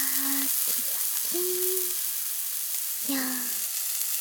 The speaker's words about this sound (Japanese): それと、いい色に焼けてる。おいしそう。